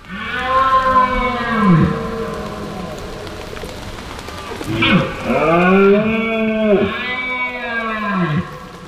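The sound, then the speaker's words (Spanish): Red deer stags bellowing on a hillside during the autumn rut: several long, deep, groaning roars that bend downward in pitch at their ends, over a steady hiss of light drizzle. “habrá empezado a sonar en el monte el sonido de la berra de los ciervos. Este es el sonido de septiembre hasta bien entrado octubre.”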